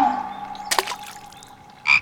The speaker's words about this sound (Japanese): あれ、さっきのカエルだ。お姫ちんの俳句が気に入ったみたいだね。